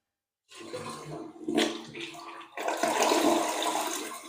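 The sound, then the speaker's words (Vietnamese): A toilet flushing after its push button is pressed: rushing water starts abruptly, swells in a brief surge, then breaks into a louder, steady swirling rush that carries on to the end, with no voices. “Bắt đầu em sẽ bấm nút xả này các bác xem nhá.”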